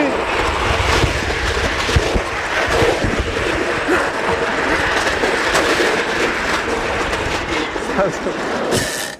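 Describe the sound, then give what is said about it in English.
A roller coaster's lift chain engaging and dragging the cars up the first hill: a loud, steady mechanical rumble with continuous rattling clatter throughout. “engages with the chain and drags you up the hill. It's like La-Z-Boy meets the Spanish Inquisition. Oh, man. There's no time to breathe or think before you get tossed over the edge.”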